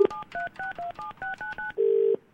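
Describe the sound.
Phone number dialed on a telephone keypad: a quick run of dual-tone beeps in an uneven rhythm, ending in a longer steady tone.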